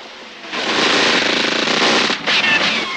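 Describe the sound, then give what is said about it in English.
Gunfire in a radio drama as two men shoot at a man running for a car: a loud, dense rattle of rapid shots that lasts about two seconds, with a brief break near the end. “John runs for the car. Leroy has him in his sights. He and Harry fire.”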